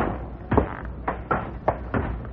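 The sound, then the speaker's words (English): A trap door in a ceiling is pushed open with several dull wooden thumps and knocks at uneven intervals. Softer scraping fills the gaps between them. “I think if we push on the ceiling, we'll find our trap door.”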